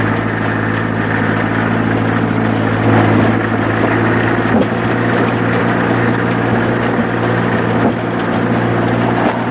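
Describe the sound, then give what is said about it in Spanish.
A truck's engine labours as the vehicle drives away up a gentle slope, belching black exhaust smoke. A steady, droning hum with strong low harmonics runs throughout, with a couple of brief knocks along the way. “El camión comienza a dejarla atrás, sin embargo Berta no se rinde. Un humo negro sale del tubo de escape mientras el vehículo comienza a ascender una suave loma.”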